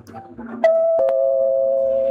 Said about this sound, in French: Oh, mais qui peut sonner à cette heure? J'espère que ce n'est pas une visite.